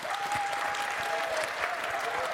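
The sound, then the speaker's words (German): Applause for the contestants of a quiz game show: a steady, even wash of audience clapping that holds at a constant level for the whole short stretch. “Applaus für die Kandidatinnen und Kandidaten.”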